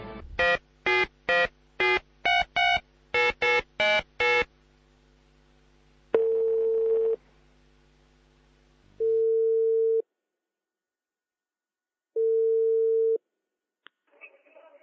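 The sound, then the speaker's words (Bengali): Touch-tone dialing for an outgoing phone call: a rapid series of short keypad beeps, then three long, steady ringback tones separated by silent gaps. “ওকে, আমরা phone কলে যাচ্ছি।”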